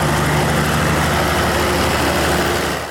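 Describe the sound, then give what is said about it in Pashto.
Diesel machines powering a small ice factory near the Grishk power plant drone steadily, a loud, constant low engine hum that holds unchanged throughout. “د ګریش د برق له فابریکې په 200 متری کې د یخي یو وړه کارخانه د ډیزلي ماشینونو په برښنا چلیږي.”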